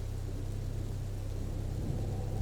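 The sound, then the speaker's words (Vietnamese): Heavy rain falls at night as a steady, dense hiss over a low, continuous rumble, unchanging throughout. “Mưa to thật đó, cũng may tao có chuẩn bị trước chứ không ướt hết rồi.”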